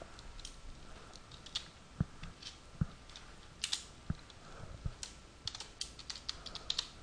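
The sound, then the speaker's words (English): Typing on a computer keyboard: quiet, irregular clicks and taps run throughout, with several sharper, louder keystrokes standing out, and no talking. “Let's take Dan Morris's here, and I'm going to type it in over here just to give you an example.”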